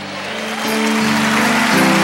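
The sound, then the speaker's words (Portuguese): Audience applause at a Catholic religious gathering, a broad wash of clapping that swells over the first second and then holds steady and loud, with sustained low tones running underneath. “O seu aplauso quer dizer amém. Por isso aplaude para valer.”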